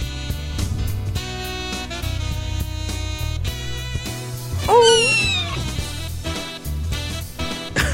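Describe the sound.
A cat meows once in a single drawn-out, high meow whose pitch bends upward. The meow rises above a steady, tonal background.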